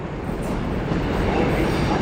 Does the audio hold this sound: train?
yes